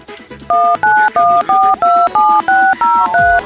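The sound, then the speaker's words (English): Telephone touch tones being dialed in a rapid run of loud, evenly spaced two-note beeps, each tone pair a slightly different pitch, over a busy background of other sound. “you need to decode those touch tones and call them and see what they were.”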